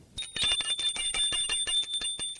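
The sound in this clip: A bell rings at a gate in a rapid, continuous trill: many quick metallic strikes over a bright, sustained high tone that fill the whole clip, loud and with no other sound.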